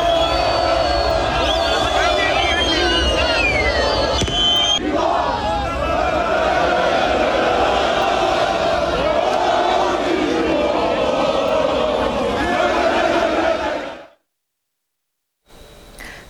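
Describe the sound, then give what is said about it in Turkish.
Football fans sing championship songs together, celebrating Galatasaray's 26th Süper Lig title in European cities. Their loud, sustained massed voices continue for about fourteen seconds before cutting off abruptly. A short burst of noise returns at the very end. “Avrupa'nın birçok kentinde de Galatasaray'ın şampiyonluğu için kutlamalar yapıldı. Taraftarlar şampiyonluk şarkıları söyledi.”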